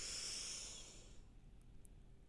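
A single soft inhale through the nose, a faint airy hiss that fades out after about a second, followed by near silence.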